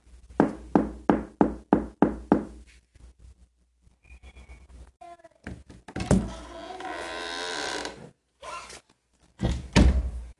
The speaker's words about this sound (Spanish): Acá estoy al frente de la casa de ella. Vamos a golpear.